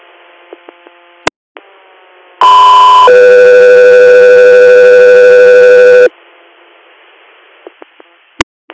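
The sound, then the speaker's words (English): Two-tone alert from a dispatch radio channel paging an ambulance crew for a hospital-to-hospital transfer: a short steady tone, then a longer, lower steady tone, both loud over radio static, with a few faint clicks before and after. “stand by for tones”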